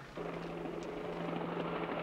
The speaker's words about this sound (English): As the helicopter closes in on them